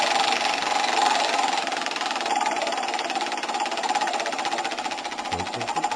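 A large prize wheel spinning gives a dense, steady run of rapid clicks that holds at an even level for about six seconds without clearly slowing.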